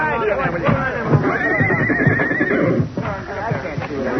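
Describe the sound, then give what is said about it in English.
A horse whinnies in a long, wavering neigh through the middle, set among shuffling and hoof noise while horses are loaded into stock cars at night. “The old nag's in the barn, the thoroughbreds in the stock fans.”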